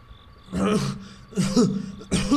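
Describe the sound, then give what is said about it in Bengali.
Three harsh, throaty coughs from an ailing elderly father at home at night, each a rough burst with a groaning, voiced edge, spaced at fairly even intervals with quiet between them. “ওর বাবার খক খক কাশি পিছনে শোনা”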